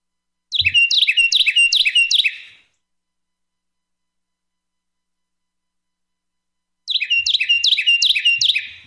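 A Carolina wren sings two loud bursts of rapid, repeated high chirping phrases, each about two seconds long, separated by a long silent pause.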